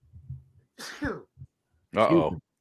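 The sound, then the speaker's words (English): A person's sneeze on a sports show stream: a sudden breathy burst, followed moments later by a second short, voiced burst, with quiet low sounds before. “I wouldn't be sneezing if that was the case. I'd be coughing first.”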